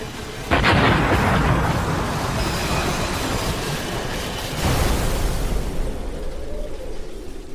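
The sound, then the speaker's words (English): A craft crashes into a hilly ridge and explodes: a sudden loud, broad blast swells into a sustained roaring rumble, then a second burst hits partway through before the roar slowly trails off. “He could hear the craft whizzing through the air as it neared a hilly ridge, careening into the earth and exploding like a city gas tank.”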